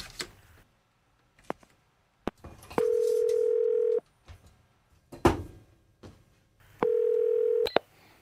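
Telephone line tones while placing a call: two steady tone bursts, each about a second long and separated by a pause, with scattered clicks and handling noises between them.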